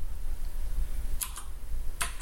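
Sharp clicks of keys on a computer keyboard: a few quick keystrokes in two close pairs over a low, steady background hum.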